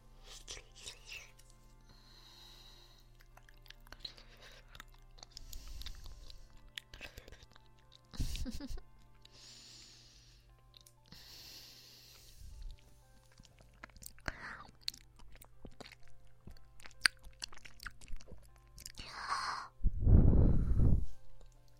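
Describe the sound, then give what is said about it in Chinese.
Two people take turns biting and chewing food: soft crunching bites and moist chewing come in separate bursts with quiet gaps between them, ending in a louder crunchy bite, alongside faint breathy sighs and whispering. “我吃一口，你吃一口，我吃一口，你再吃一小口。”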